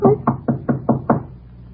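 Six firm, evenly spaced knocks on a door in a quick, steady rhythm, then quiet.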